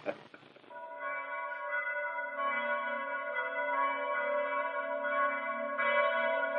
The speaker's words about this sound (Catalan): Aquesta campana sembla que toqui l'enterro de les meves il·lusions.